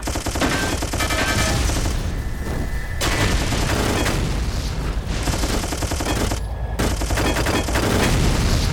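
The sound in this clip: Machine-gun fire in a video game, dense rapid bursts that stay loud and continuous with only brief dips between volleys.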